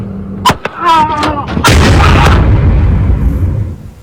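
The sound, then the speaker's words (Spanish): Pistol gunshots ring out as an argument between older men on a road turns deadly. Sharp bangs are followed by a shouting voice, then a loud, sustained burst of noisy rumble that slowly fades. “hasta que uno saca un arma, dispara, y la bronca terminó con un hombre muerto y su hijo herido.”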